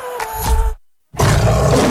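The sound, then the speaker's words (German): A lion roars, a deep, loud rumbling roar in two heavy bursts broken by a short stretch of silence. “Der schwarze Löwe brüllt wieder.”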